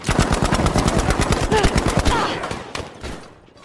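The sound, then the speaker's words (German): Machine gun fire on a World War II video game battlefield: a loud, dense burst of rapid, evenly spaced shots that thins out into a few scattered, fading shots toward the end. “Hier der entsprechende Schlachtfeld-Sound.”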